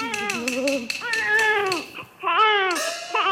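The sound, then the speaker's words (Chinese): A baby cries in loud, drawn-out wailing bursts, a few sobbing cries whose pitch sags toward the end of each, separated by short breaths. “哎呀，哪里是鬼呀？分明是婴儿啼哭， 婴儿啼哭 啊！”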